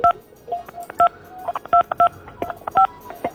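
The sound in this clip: Telephone dialing tones sound as a quick, irregular series of short dual-pitched beeps. Some beeps are clearly louder than others, and a soft hum sits between them.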